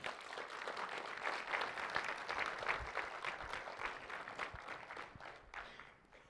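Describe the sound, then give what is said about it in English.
An audience applauds to welcome a guest, a dense, steady wash of many hands clapping that holds evenly and then tapers off softly at the end. “Just give her a good welcome as she comes.”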